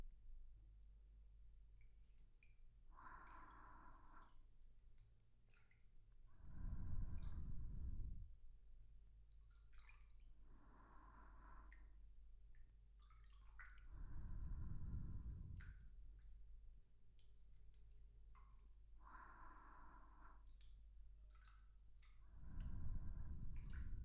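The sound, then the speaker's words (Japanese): Soft wet splashing as water is rinsed over skin by hand, quiet and gentle, with a few swelling washes of water recurring slowly between lighter drips and squishy touches. “スポンジなどを使うと肌を傷つけてしまうこともあるので、私の手で直接流していきますね。”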